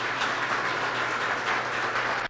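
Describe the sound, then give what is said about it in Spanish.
Sustained applause for the staff of a Colombian mayor's office: a dense, even wash of many hands clapping, steady in loudness, with a brief dropout near the end. “y por eso un aplauso duro para ustedes, porque se lo merecen.”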